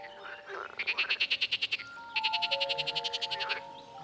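Frogs croak at a flooded gravel pit in two runs of rapid, rattling pulses separated by a brief pause. The calls are clear and fairly loud, with a faint steady tone beneath.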